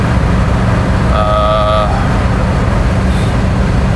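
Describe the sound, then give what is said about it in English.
A car being driven on the road to work gives off a steady, loud rumble of engine and road noise, with a brief honk-like tone sounding for under a second partway through. “And I am driving to work right now.”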